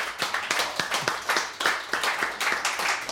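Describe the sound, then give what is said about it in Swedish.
A live audience claps after a performance at a show. The applause is dense and steady, with a loose rhythmic pulse running through it, and no talk over it. “Ta emot jublet.”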